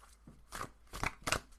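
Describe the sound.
A card being pulled from a deck for an Aries full moon: a few soft, papery swishes and snaps, quiet and alone, growing slightly louder toward the end.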